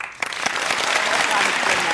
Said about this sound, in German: begrüßen Sie bitte mit einem warmen Applaus alle Helden des heutigen Abends.